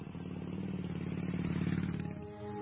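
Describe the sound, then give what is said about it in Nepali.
Motorbike engine drone as the rider pulls away, a steady, low rumbling hum with a slight rev that eases off near the end, with no voices. “जाम हिँड, बरु मेरो बाइकमा गएर आइहालौँ।”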